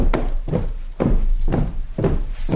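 A company of soldiers marches in step, their boots landing as steady heavy thuds about twice a second against a constant low rumble.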